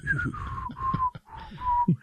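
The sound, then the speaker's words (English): A person whistles a song in clear, sustained notes that glide between pitches, with a brief break partway through and faint low sounds underneath. “Who is whistling a song? What are you whistling?”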